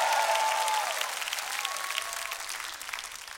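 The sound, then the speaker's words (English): Church audience applauding and cheering in response to a preacher, a dense burst of clapping with a high whistle at the start that gradually thins and fades away. “If you've come out of some trouble, make a little noise in the room right now.”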